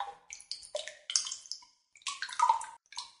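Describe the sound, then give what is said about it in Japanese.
A rice bran bag being soaked in hot water gives short, bright splashes and drips, a string of quick sloshes in two bursts with a brief pause between them. “ぬか袋ですよ。ちょっとお湯につけてふやかして、”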